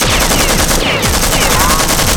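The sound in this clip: Rifle gunfire in a close fight in a concrete building, with rounds striking the floor: a loud, unbroken stream of rapid automatic shots, each crack running into the next for the whole stretch, with no talk over it.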